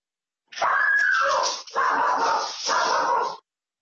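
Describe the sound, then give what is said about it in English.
A dog whimpers and barks during a legislative committee meeting: three loud, strained, whining yelps follow one another closely, each drawn out for about a second, with no voices. “I apologize. That's my dog.”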